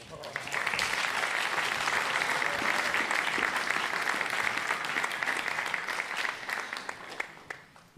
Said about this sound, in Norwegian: Kan vi ikke ta gi deg en applaus?